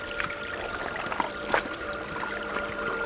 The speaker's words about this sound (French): Remonter près de ces cours d'eau,